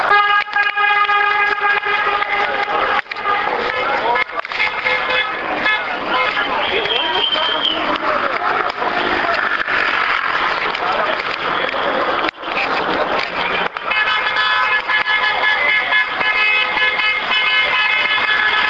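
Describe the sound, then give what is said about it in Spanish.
Car horns honk in approval as a street march passes, with long sustained blasts at the start and again toward the end over a dense, noisy background with voices in the mix. “Pasan, tocan sus bocinas en señal de aprobación de lo que es el movimiento, o que por aquí por la avenida Marín, por la calle Marín.”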